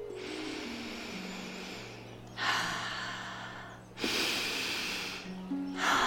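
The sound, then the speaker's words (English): A person takes slow, deep breaths to show how to relax. A few long, airy inhales and exhales, each over a second, are separated by short, quieter gaps over a faint background hum. “Take deep breaths. Like this.”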